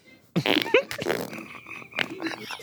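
A loud, drawn-out fart that breaks into several sputtering, uneven bursts, with rough low tones and sharp bright spikes, starting abruptly after a short silence.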